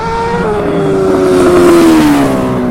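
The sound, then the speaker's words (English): A vehicle's engine roars past at speed during a speed test, a loud, continuous drone whose pitch slides steadily downward over the pass. “No wheelie on that pass by. Yeah, no wheelie. Just a speed test.”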